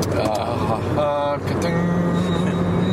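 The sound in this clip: Steady road noise inside a car being driven: a continuous low rumble with broad hiss, with voices heard over it.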